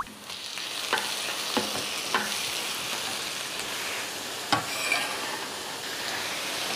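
Pineapple stir-fried in a pan for pineapple fried rice makes a continuous hissing sizzle, broken by a few sharp knocks of the utensil against the pan.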